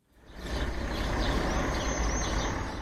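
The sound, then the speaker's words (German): An old minibus pulling up at a crossing in Lleida at 6 a.m.: a low, broad engine rumble swells in over the first half second, then holds steady and loud to the end. “Ein alter Kleinbus fährt vor”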